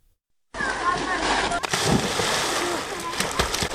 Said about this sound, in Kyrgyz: Облус борбору Баткен шаарын аралап өткөн каналда минтип эрте мененки саат 10:00 баштап күн батканга чейин толтура чыт курсак сууга түшүп жатканы көндүм көрүнүш.